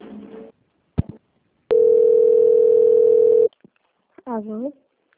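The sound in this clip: Steady telephone dial tone while a call is being placed, one flat sustained tone lasting nearly two seconds, preceded by a click and a brief voice, with another short voice afterward.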